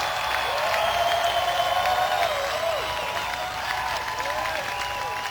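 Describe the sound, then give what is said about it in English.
Audience applause greets a performer coming out on stage: dense, steady clapping with crowd noise that holds at an even level from start to finish. “Ladies and gentlemen, can we please have a warm welcome, or excuse me, a warm hand for that man who just came out here.”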